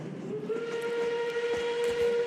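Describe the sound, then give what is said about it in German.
Steam train whistle sounding as a train arrives: one steady, sustained tone with bright overtones that holds at an even loudness through the whole clip, with no talking. “Der Explain Train fährt ein.”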